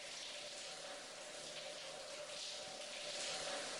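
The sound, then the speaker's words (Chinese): Shower water running in a small home, a soft, steady hiss of spray that carries on without a break at a low level, with no voices. “快去洗澡吧”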